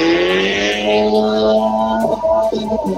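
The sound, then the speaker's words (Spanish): Race car number 82 accelerating up a hill-climb course, its engine a loud, sustained high-pitched drone with strong harmonics as it holds the revs. “Está en carrera la máquina número 82 de Juan Piso. Va rumbo a la chimenea Nazareno. Sí, señor, lo que mejor hace Juan Piso es pisar el acelerador en esta trepada.”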